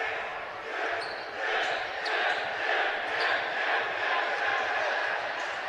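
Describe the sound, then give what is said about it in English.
A basketball dribbled just inside the half-court line during a game gives repeated low thuds in a regular rhythm over a constant murmuring crowd. “Dribbling just inside that half-court stripe. He's still dribbling out there.”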